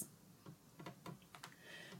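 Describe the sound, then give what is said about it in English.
Faint keystrokes on a computer keyboard as a long message is typed out, a quick, irregular run of several sharp clicks with short gaps between them, and no voices over them. “Damn, it let me type all that. God, I thought it was going to be a character limit.”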